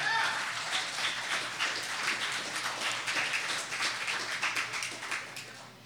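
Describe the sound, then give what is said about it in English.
An open mic audience gives a round of applause for a performer, with brisk, even clapping that keeps going throughout and softens slightly at the very end. “Y'all, give it up one more time for Sydney.”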